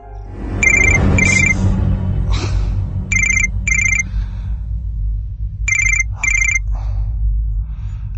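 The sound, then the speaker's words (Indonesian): A mobile phone ringing with a bright electronic ringtone, sounding in three pairs of short, high beeping bursts over a steady low background hum. “aku dikagetkan oleh suara handphoneku yang berdering”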